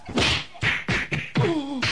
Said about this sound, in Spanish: puedes mandar un golpazazo al arquitecto Adrián que no se dispara las cocas